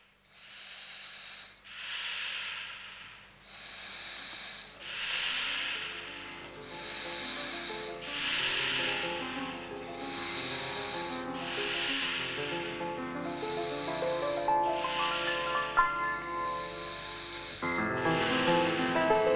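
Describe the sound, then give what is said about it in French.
Recorded snoring serves as the rhythm of a music track: regular breathy snore bursts repeat many times over a sustained tonal drone, quiet at first and fuller toward the end. “le mec, en fait, se double au ronflement, et ils enregistrent par-dessus de la musique dont les ronflements sont la partie rythmique.”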